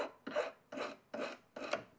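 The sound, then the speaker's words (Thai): A hand file rasps against the tip of a silver bar in four even, rhythmic strokes. Each stroke is a bright, gritty scrape separated by short pauses, with no talking. “เราก็เริ่มตะไบได้เลยค่ะตะไบให้ปลายแท่งเงินนะคะมีความแหลม”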